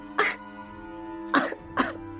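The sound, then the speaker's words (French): Three harsh coughs from someone who coughs when trying to laugh, each a short rough burst separated by pauses, over a steady sustained musical drone. “Et au lieu de rire, il se mit à tousser.”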